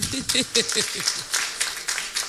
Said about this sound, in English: Let's clap for our women here. Ah, you don't clap for yourselves.